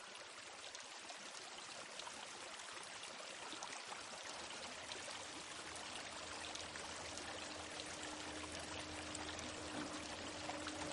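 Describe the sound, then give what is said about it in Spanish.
Water flooding across a floor in a thriller film scene: a steady, broad rushing and pouring noise throughout, faint overall, with a low hum that joins partway through. “Observa el agua que inunda el suelo. Una silla flota.”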